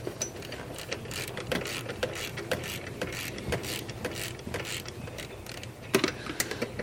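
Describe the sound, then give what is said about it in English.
A ratchet wrench loosens the bolt of an old idler pulley, giving many quick, faint clicking ticks in an even rhythm with a few sharper mechanical snaps. “Ratcheting off the old idler pulley.”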